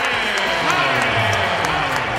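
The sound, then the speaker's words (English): Arena crowd in Houston cheering and booing James Harden on his return as a Brooklyn Net, a loud, dense, continuous roar of many voices and clapping that stays level throughout. “Now, more cheers than boos is the way it sounded there.”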